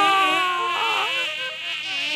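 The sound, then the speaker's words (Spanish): A swarm of wasps and venomous insects buzzes out of freshly cut pumpkins: a loud, steady, high-pitched drone with layered, slightly wavering tones that holds without a break. “Al cortar las calabazas, en lugar del arroz que esperaba, empezó a salir un enjambre de avispas y muchísimos insectos venenosos.”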